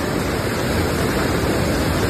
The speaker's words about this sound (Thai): อ่างเก็บน้ำเขาจุกตรงด้านข้างสปริงเวย์มีการขัดเซาะแต่ยังไม่แตกลงไปน้ำยังไหลตามสปริงเวย์อยู